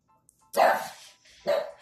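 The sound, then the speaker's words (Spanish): A household's dogs bark right in front of their owner: a few sharp, loud barks in separate bursts with short gaps between, the first one longest. “Ah, sí, mis perros están enfrente de mí ladrando.”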